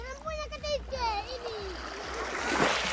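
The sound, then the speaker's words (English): Water splashes and laps around an Indonesian mangrove village as the tide rises. Children's voices call over it early on, and a fuller splash rises near the end. “The rising tide laps at the feet of local children and fishermen and submerges all but the tops of the mangrove trees.”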